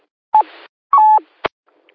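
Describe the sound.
Telephone line tones signal an incoming caller: two short, steady electronic beeps separated by a pause, each trailing into a brief hiss, followed by a sharp click.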